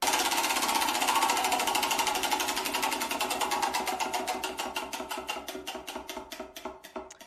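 Prize wheel spinning, its ratchet ticking rapidly at first, then gradually slowing as the clicks spread apart and weaken toward a stop.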